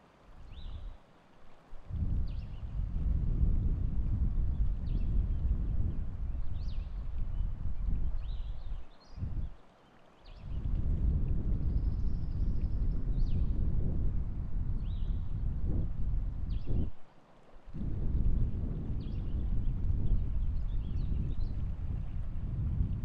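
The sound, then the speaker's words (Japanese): Breath is blown into the ears from both sides: soft, rushing gusts of air in several long blows broken by brief pauses. The sound is quiet and steady, with no talking. “両側から 耳に息を吹きかけていきますね。”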